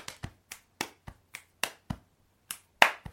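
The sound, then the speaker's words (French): Crisp finger snaps set the beat of a homemade jingle, about eleven sharp clicks in a loose, uneven rhythm with short gaps and a longer pause near the end. No voices accompany them. “Tiens d'ailleurs, je me suis créé un petit jingle que je vais te partager.”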